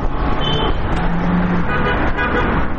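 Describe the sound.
Steady road traffic on the Kabul–Kandahar highway rolls past a small village market near Ghazni, a continuous loud rumble and whoosh of passing cars and trucks that holds throughout.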